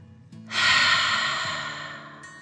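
A deep breath taken during a children's relaxation exercise: a single long, airy rush of breathing swells quickly, then fades gradually over about two seconds, heard alone over a faint low hum.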